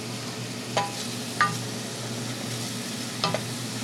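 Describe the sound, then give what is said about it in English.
Onions sauté on a stove for soup, giving a steady, soft sizzling hiss with a few faint clicks on top and no voices. “On the stove, she sautés onions for the soup.”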